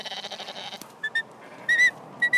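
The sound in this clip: Sheep bleating in a pen, the animals marked with a red spot: several short, high, harmonic bleats come in quick bursts, some in close pairs, with no talk.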